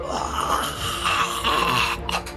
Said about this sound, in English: he staggers past you, sort of clutching his side as he does so, and you hear the rattle of a breath from around the corner